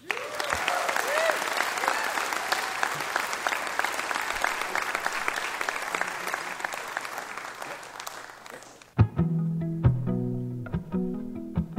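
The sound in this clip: Audience applause welcoming a performer at Mountain Stage in West Virginia: dense, sustained clapping for about nine seconds that suddenly gives way to music.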